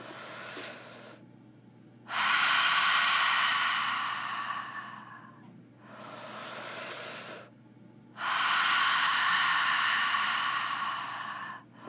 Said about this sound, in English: we're going to bring in more energy with your breath, beginning to breathe in through your mouth,